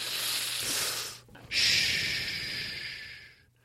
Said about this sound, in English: To everybody, take a deep breath.